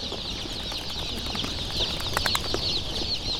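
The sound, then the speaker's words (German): Many young yellow chicks, hatched five days earlier, peep while waiting behind shoe boxes for onward transport. Their dense chorus of high, thin cheeps runs continuously and fairly faint, with a few sharper chirps poking out. “Hinter den Schuhkartons warten etwa genauso viele kleine gelbe Küken, die alle vor 5 Tagen geschlüpft sind, auf ihren Weitertransport.”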